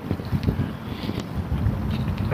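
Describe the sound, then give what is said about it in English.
Wind from the north-northeast buffets the microphone outdoors, producing a loud, fluctuating low rumble and rushing noise with irregular gusty surges throughout. “And the wind is from the north-northeast.”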